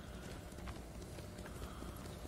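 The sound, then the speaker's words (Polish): Horse hooves clip-clop in a video game, a steady run of hoofbeats over a constant bed of game noise with no clear pauses. “Konik, chodź tutaj do mnie.”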